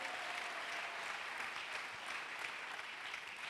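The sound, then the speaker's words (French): A church audience applauds in a steady, even wash of clapping hands that holds at an unchanging level for the whole stretch. “On peut acclamer le Seigneur. Naweza kumshangilia Bwana.”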